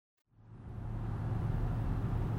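A car drives along a road. After a brief silence, a low rumble and broad road noise fade in and hold steady to the end. The sound is fairly quiet and no voices are heard.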